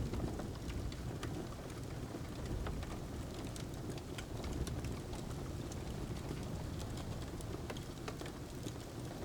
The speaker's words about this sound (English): Each raindrop and each crackle of the logs on the fire sends you sleepier.